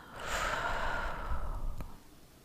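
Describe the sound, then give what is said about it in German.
Deep breath drawn in and released in a long, slow exhale during a guided relaxation exercise, a single soft, airy breath that swells and then fades away alone. “Atme tief ein und lass los.”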